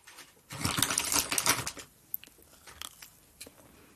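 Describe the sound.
Crunchy biting and chewing of a homemade cookie: a loud, dense crunch runs for over a second, then a few fainter sharp clicks of chewing follow. No one talks.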